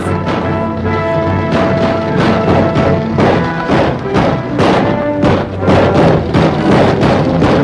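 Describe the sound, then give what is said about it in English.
Gunfire from many guns, supposedly six-shooters, roars as a dense, unbroken barrage of overlapping thuds and cracks, loud throughout, with a tonal layer running underneath. “Is that one gun? Probably. A couple different guns, but you think they're using six shooters, but it sounds like about 2,600 shooters.”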